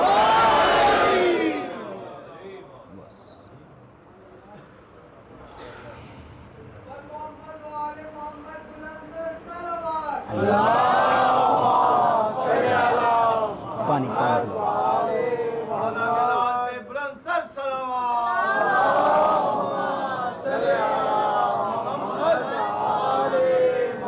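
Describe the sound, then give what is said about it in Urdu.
Crowd at a Shia majlis chanting the slogan Naara-e-Haidari, a loud lone shout at first, then a quieter lull before many voices surge together in loud, sustained bursts of chanting. “تو پھر جب امام کی برگاہ میں آؤ تو اپنا ایمان ہاتھ باندھ کے نہیں ہاتھ کھول کے ریکارڈ کراؤ, دونوں ہاتھ اٹھا کے نعرہ حیدری.”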